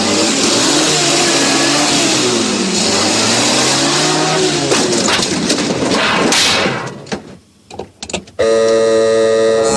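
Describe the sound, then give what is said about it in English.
A car engine revs hard and loud as the car careers into a yard, its pitch wavering up and down, then breaking into a few sharp clattering impacts near the end. “The doctor's car careers into the yard, knocking over a pile of junk.”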